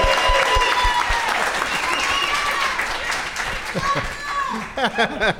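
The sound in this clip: An audience claps and cheers in steady applause for a first-time guest on a comedy show. The clapping thins out as voices start talking over it near the end.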